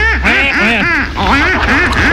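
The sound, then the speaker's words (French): Duck quacking: a rapid, steady series of many loud, nasal quacks, with calls crowding one after another without pause and seeming to overlap. “Les canards les plus connus sont le colvert, le barbari, le canard de Pékin ou aussi le rouennais.”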